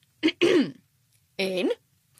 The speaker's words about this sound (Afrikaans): Meneer Fik maak sy keel skoon.